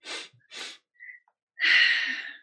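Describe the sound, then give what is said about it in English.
Sniffing: two short, sharp sniffs followed by a longer, stronger inhaling snort, alone and fairly loud with silence between. “A couple of sniffs.”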